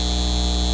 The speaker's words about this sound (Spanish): Este es el sonido de un centro de datos llevándose el agua de nuestra comunidad y aumentando